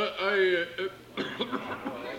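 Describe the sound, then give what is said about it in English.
A man coughs during a wedding ceremony, giving a run of several rough, breathy bursts just after a spoken voice. “No, I'm sorry, I just coughed.”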